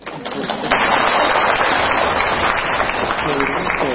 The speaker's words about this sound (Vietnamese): Vỗ tay.